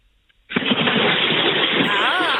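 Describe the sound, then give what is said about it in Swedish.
Splashing as something plunges into a pool of water at Fäboden in Jämtland: a sudden burst after near silence that carries on as a dense, steady rush of churning water. “Så ska det låta. Så där låter ett bad. Ja, nu har vi liksom tydliga ljudbevis på att det har ägt rum.”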